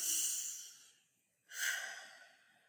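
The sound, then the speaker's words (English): Two long, soft breaths of air, one at the start and one after a short silence, each rising quickly and trailing away gently; quiet and alone. “We can take a deep breath”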